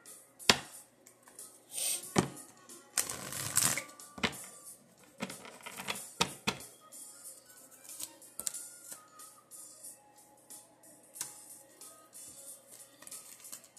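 Deck of oracle cards being shuffled: quiet, irregular flicks, clicks and soft riffles, with a denser flurry of shuffling near the start and scattered snaps after.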